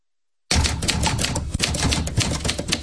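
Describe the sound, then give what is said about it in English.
Rapid, dense clacking of typewriter keys starts abruptly after a brief silence and continues steadily for over two seconds, loud and alone, with many sharp strikes running together. “it's only funny if you have the typewriter thing”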